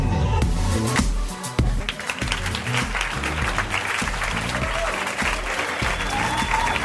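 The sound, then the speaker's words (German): A live audience applauds as the hosts arrive on a festival stage: a loud, dense roar of many hands clapping, sustained and even for about seven seconds. “Begrüßt mit uns live auf der Bühne eine Stunde Film.”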